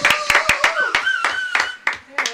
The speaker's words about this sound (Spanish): aplausos.